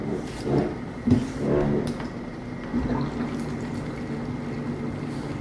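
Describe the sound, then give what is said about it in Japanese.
Hot water pours from a pot and bubbles, making a steady, rushing liquid noise with gurgling texture that stays fairly even throughout. “ポットからお湯がお湯がジョボボボボうわグツグツ言って”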